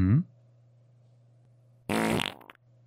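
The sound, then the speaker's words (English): Fart sound effects when a character dies in a video game: a short blurt, then after a pause a longer, louder buzzy one, both over a faint steady low hum. “I fart. Makes sense. Okay. A life of farts. It's only fitting that you fart in death.”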